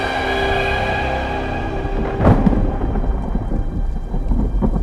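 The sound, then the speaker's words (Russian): Heavy rain from a clouded sky pours in a steady loud hiss during a thunderstorm, washing fire traces off a rock. Sustained tones sound at first, then a single sharp thunderclap cracks about halfway as the downpour continues. “Небо затянуто тучами. Ливень смывает со скалы предков следы недавнего пожара.”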